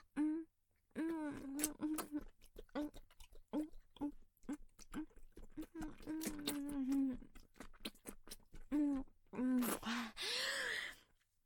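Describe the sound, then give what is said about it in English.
A person groans, producing a long run of voiced moans, sighs and short breathy gasps over about eleven seconds. A noisier rush of breath comes near the end. “I heard that groan. I think that means I did it right.”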